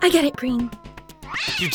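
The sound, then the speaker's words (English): A cat meows while being dragged up a tree, its high, wavering cries rising and falling around people talking. “And that's the sound of a cat being dragged up a tree just so someone can take it down again.”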